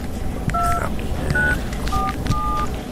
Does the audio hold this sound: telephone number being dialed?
yes